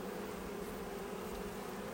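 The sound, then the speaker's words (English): Honey bees buzz faintly and steadily at hive frames, including one packed full of stored food, giving a continuous low drone with no talking. “all of my hives should have more bees in them. Got another frame that is full of stores.”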